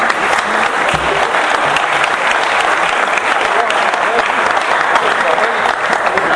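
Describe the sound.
An audience at an informal samba gathering breaks into loud, dense applause that holds steady throughout, with some voices mixed in beneath the clapping.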